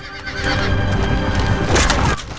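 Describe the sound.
Horses whinny loudly as riders are knocked from their mounts by a line stretched between trees in a forest, with hoofbeats clattering beneath a dense, continuous din of neighing.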